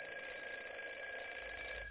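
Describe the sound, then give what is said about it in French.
An alarm clock ringing with a steady, piercing electronic tone that holds unchanged for about two seconds before dropping slightly at the end; no voices. “Ton réveil sonne.”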